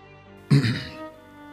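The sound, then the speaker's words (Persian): A single short, fairly loud throat clearing, with a rough rasp that fades quickly against a quiet background. “گلوم رو صاف کردم و ظرف رو برداشتم”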